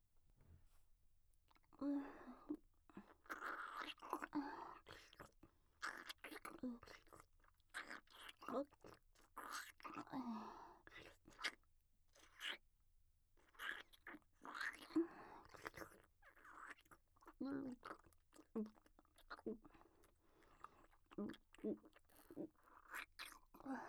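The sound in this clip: Food is chewed before mouth-to-mouth feeding in a mother role-play: quiet, moist chewing with many small crunches and smacks, with soft whispered speech at times.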